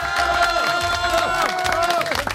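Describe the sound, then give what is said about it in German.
A crowd cheers and claps for a contest winner at a live regional radio event in Breitenau. The clapping is loud and sustained, with high whoops and tonal shouts on top, and it tapers off sharply at the end. “Und jetzt brauchen wir natürlich einen riesengroßen Applaus. 3, 2, 1, Karl!”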